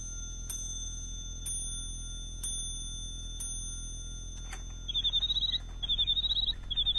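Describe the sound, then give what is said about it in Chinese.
A bird-song clock gives four bright metallic clinks, then a click, then breaks into rapid, high, warbling chirps in quick bursts, with no voices. “你替我把这座鸟鸣钟送给詹天佑，这是太后赏给我的”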